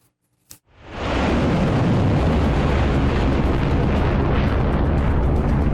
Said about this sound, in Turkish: Patlamalar yaşandı, alevler yükseldi.